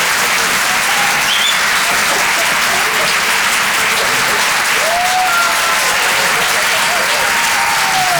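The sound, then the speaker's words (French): Sustained applause from a comedy club audience for a comedian: a dense, even clatter of many hands clapping that stays loud and steady from start to finish. “Allez, on peut l'applaudir très fort.”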